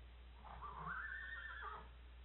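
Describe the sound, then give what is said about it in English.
A single whinny from a spirited, fresh horse: a faint neigh whose pitch climbs, holds briefly, then falls away over a low, steady rumble. “Get that horse back. He's fresh.”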